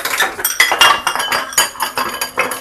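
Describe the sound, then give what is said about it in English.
A wire whisk dropped into a kitchen sink and a bowl clinking, giving many sharp metallic clinks and clatters in an uneven rhythm, fairly loud, with no talk. “Then we can put the wire whisk in the sink, pour this in the bowl”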